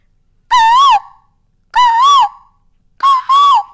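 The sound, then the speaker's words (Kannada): Asian koel call, given as the female's, heard as three loud whistled notes with wavering pitch. The second note dips in the middle, and the last is broken into two parts. Quiet gaps separate the notes. “Next one ಕೋಗಿಲೆ. ಇದು ಎರಡು ಕಾಲ್ ಇದೆ, ಮೇಲ್ದೊಂದು ಬೇರೆ ಕಾಲು, ಫೀಮೇಲ್ದೊಂದು ಬೇರೆ ಕಾಲು. ಇದು ಮೇಲ್ದು ಮಾಡ್ತಿರೋದು, ಈಗ next ಫೀಮೇಲ್ದು.”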